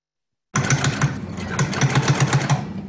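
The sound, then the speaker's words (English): Sewing machines stitch face masks made by volunteer mask makers in Tennessee during the COVID crisis, a steady mechanical whirring with a quick, regular tapping rhythm that starts abruptly from silence and runs on continuously. “Kindness that gains momentum with every stitch. Mask makers across Tennessee, more than 500 volunteers sewing stylish and practical face coverings to protect people during the COVID crisis.”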